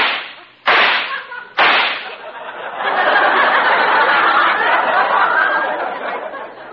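Gunshots at a shooting gallery target: two sharp, loud cracks in quick succession, each decaying fast, followed by a long, noisy wash of sound.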